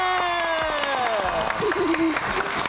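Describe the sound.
Audience applause at an award ceremony for scholarships and certificates: steady crowd clapping with shouting voices and a sustained tone running through it.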